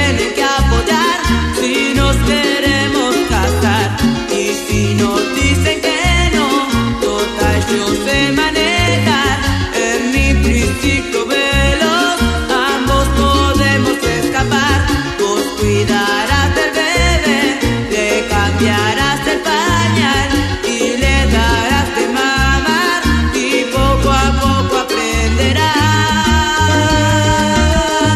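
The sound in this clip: A song about the work of being a mother plays loudly and continuously, with a steady pulsing rhythmic beat and dense harmonic accompaniment and no pauses.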